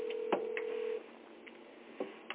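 A telephone line tone heard while a call is being placed holds steady for about a second, then stops. A few scattered soft clicks follow, all faint.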